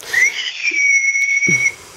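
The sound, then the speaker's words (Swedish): A coffee pot with a small spout whistles when its boiled coffee is done. The loud, high-pitched tone sweeps briefly upward, then holds steady for about a second and a half. “Och när kaffet var kokade färdigt, så då piper det. Just det. Vissla.”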